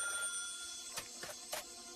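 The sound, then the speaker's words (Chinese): A telephone ringing in a room in a building, a faint, steady ringing with a few soft clicks over it. “八号楼里，黄一彪房间的电话突然响了。”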